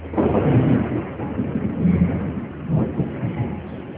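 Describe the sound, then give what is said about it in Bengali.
A loud, continuous thunder rumble of deep, rolling low-frequency roar that swells and eases slightly throughout, with no talking. “তোমার বজ্রপাতের শব্দে ভয় করে না? না, বজ্রপাতের শব্দে আমার খুবই ভালো লাগে”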